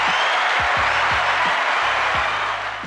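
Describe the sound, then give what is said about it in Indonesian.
A talk-show studio audience applauds in a dense, steady wash of clapping that stays loud throughout, with soft low thumps recurring underneath. “Kita aplaus dulu untuk Ibu Anka Maruyatna.”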